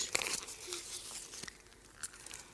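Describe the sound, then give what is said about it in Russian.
Crunchy biting and chewing of a small sausage, with a few crisp bites followed by softer, irregular mouth sounds that stay fairly faint. “А в конце дня нам заплатили этой маленькой колбаской. Ешь, моя милая.”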